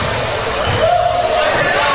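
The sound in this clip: A basketball is dribbled during a women's basketball game, low bouncing thuds under a constant roar of crowd noise.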